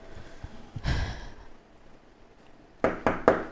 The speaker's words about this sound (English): Let's do the double knock.